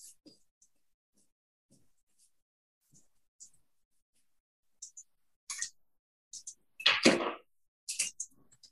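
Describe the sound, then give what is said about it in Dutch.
A pen draws on a board in sparse, brief high squeaks and clicks. The strokes come more often toward the end, with one longer, louder scrape in the final seconds. “ik ga dat eens tekenen”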